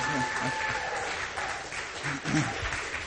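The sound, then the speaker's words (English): Audience applause at a church gathering greets newlyweds back from their honeymoon. Steady, even clapping fills the whole clip while a voice talks over it. “In the back, give them a big hand.”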